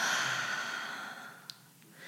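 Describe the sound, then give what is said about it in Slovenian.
A cleansing exhale through the mouth during a guided relaxation breathing exercise: one long, soft, breathy rush of air that slowly fades. A faint click follows, and nobody speaks. “ena tako čiščujoča izdih skozi usta”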